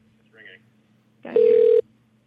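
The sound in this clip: A telephone ringback tone on an outgoing call: one steady, mid-pitched buzzing ring lasting about half a second, preceded by a brief faint voice, with near silence before and after.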